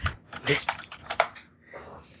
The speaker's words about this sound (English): type in literally any other combination of letters and numbers